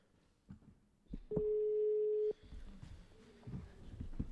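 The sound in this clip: A telephone rings on a live call, heard as a single steady ring tone lasting about a second, with quiet voices and movement before and after it.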